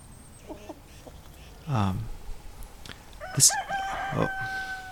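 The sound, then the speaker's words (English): A rooster crows once on a farm in the morning, a single loud harmonic call, followed by bright, high chirping birdsong from other birds over faint background rustle. “This is the morning song of a bird.”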